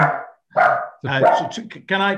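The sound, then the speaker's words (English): A pet dog barks during a conversation: a few loud barks that break in among the voices. “That's my dog, I'm afraid.”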